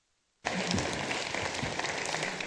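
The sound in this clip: Audience applause welcoming a speaker to the stage for a talk on preventing catheter-associated urinary tract infections. Dense, even clapping starts abruptly after a short silence and continues at a steady level.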